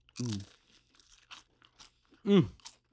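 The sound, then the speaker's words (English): Crisp crunching comes from someone biting and chewing a plain cracker topped with white sturgeon caviar and creme fraiche. Several short, soft crunches fall between two louder appreciative vocal hums. “White sturgeon. White sturgeon. With a little bit of creme fraiche on the fucking plainest cracker we could find.”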